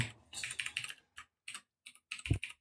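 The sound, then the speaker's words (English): Typing on a computer keyboard: quick bursts of soft key clicks broken by short pauses, fairly quiet, ending in a heavier thump of a key press. “I will type it out to you.”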